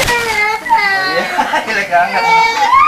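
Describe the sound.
A child crying: high, wavering wails with sobbing breaks, staying loud and continuous from start to finish.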